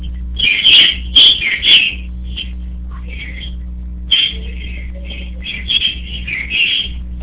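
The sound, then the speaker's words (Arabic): Small birds, sparrows, chirp loudly in clusters of bright, high calls: a burst of several chirps early on, a pause, then many more, over a steady low hum. “صوت العصافير مرتفع جدا.”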